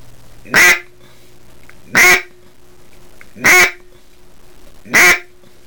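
Four short, evenly spaced quacks from a duck hunting call blown after turning it over, each a bright burst of equal loudness with quiet gaps of about a second and a half between them.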